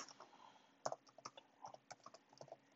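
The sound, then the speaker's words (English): Typing on a computer keyboard while entering a password: many quick, irregular key clicks and taps at a soft level, with a few louder strikes and no voices. “Right now, I'm searching via my computer. Just type, uh, messing up my password.”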